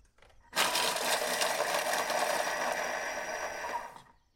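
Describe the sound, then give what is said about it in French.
A blender grinding 200 grams of speculoos biscuits into fine powder: a sudden loud, gritty whirring that holds steady for about three and a half seconds, then cuts off and trails away. “mes 200 grammes de biscuits dans mon blender. Hum, ça, ça va être bon. Et c'est parti, je vais mixer.”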